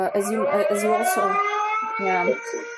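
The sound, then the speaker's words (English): Air raid sirens wail with steady, sustained tones through the whole stretch, while a person talks over them. “that's air raids. We hear the sirens and may hear them again during this hour.”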